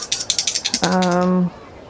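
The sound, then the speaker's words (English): Dice are rolled during a tabletop role-playing game, a quick run of even rattling clicks followed by a short, steady buzzing tone. “Oh, dice. Don't fail me now.”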